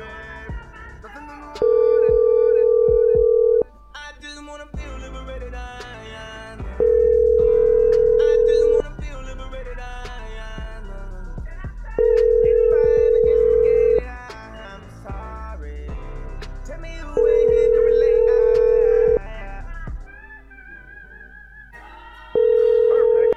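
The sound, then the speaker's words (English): Ringing on a call to a cell phone: repeated steady mid-pitched tones, each about two seconds long and evenly spaced roughly five seconds apart, with a busy tonal background between them. “Let's try Ellen's other number, this might be a cell phone.”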